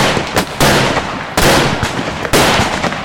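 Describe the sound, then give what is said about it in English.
Gunshots ring out as a few sharp, loud cracking bursts over a constant roar of dense noise, spaced unevenly across the short stretch. “Stop or we'll fire.”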